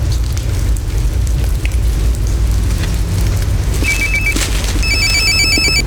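A telephone rings during an outgoing phone call, giving a few short electronic ringtone bursts near the end over a constant hiss-like background.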